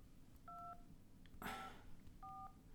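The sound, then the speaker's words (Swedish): A telephone number is dialled: three faint, evenly pitched dual-tone keypad beeps sound, spaced well apart, with a short burst of noise alongside the middle one. “Eh, jag tänkte ringa upp henne så får vi snacka lite grann med henne så får hon berätta om sin upplevelse.”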